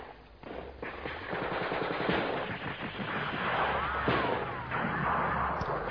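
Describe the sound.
Machine-gun and rifle fire from a clash between Turkish and Greek forces near İzmir: a dense, continuous rattle of rapid bursts and heavy thuds fills the whole clip with no voices.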